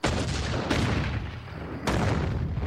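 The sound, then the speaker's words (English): Homemade liquor bottles exploding in a basement: a few booming blasts with sharp attacks, each followed by a dense, sustained roar that fills the whole clip with no pauses and no voices. “there's no point in pretending you're making those noises. Your homemade liquor is exploding again.”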